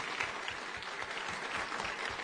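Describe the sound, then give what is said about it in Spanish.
An audience applauds a speaker at a public finance forum. The clapping is dense, steady and fairly quiet, running evenly without breaks. “a Daniel González Vadillo de la Organización Defensa del Deudor, les pido un fuerte aplauso.”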